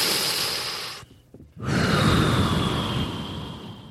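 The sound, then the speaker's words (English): People taking a deep breath together: a long, airy rushing breath, a short quiet pause, then another long breathy rush that slowly eases off. “Let's just seriously take a deep breath.”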